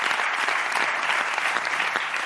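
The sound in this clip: Applause from a crowd, a dense, continuous patter of clapping that holds at an even level throughout.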